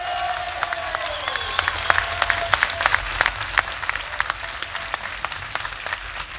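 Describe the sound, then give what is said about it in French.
Audience applause, an ovation welcoming a Vendée Globe sailor at a reception: dense clapping from a crowd sustained throughout, with sharp individual claps standing out. “Très content de recevoir Romain, donc vous pouvez lui faire encore une ovation, messieurs-dames.”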